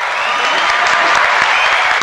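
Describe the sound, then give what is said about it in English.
Loud, continuous applause: dense, even clapping from many hands that holds steady for about two seconds. “That needed a clap.”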